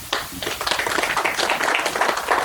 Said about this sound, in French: Et ça, pour ça, ben, je vous applaudis. Bravo.